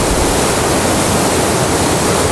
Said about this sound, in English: Washing her hands.